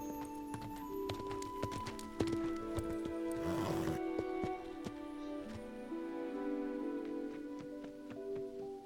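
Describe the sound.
Steady clip-clop of hooves as a horse is ridden in a film scene: a run of sharp, even hoofbeats over sustained background tones, moderately loud throughout.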